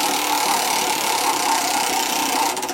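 A prize wheel spinning and slowing down: a dense, steady clatter of rapid ticks, with separate clicks emerging toward the end as it loses speed.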